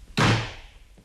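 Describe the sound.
A single heavy knock on a door, struck hard instead of ringing the bell: one loud, dull thud that rings out and fades over most of a second.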